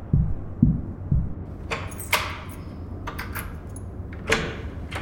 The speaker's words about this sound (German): Was fällt euch beiden Vögeln eigentlich ein, hier so gegen die Tür zu hämmern, hä?